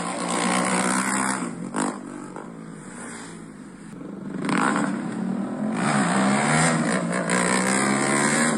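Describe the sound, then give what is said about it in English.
Scrambler motorbikes and e-bikes race up and down a road. Their engines make a continuous loud, buzzing roar that dips briefly in the middle and swells again with revving, with no voices heard. “because you talk about these scramblers and e-bikes. They were racing up and down the road.”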